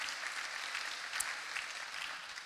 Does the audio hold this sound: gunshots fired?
no